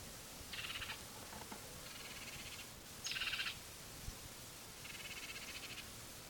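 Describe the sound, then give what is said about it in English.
Harsh, buzzy protest calls from a bird, four short rasping bursts spaced a second or more apart, fairly faint over a steady background hiss. “There's also another bird giving protest notes. So there are 2 birds here.”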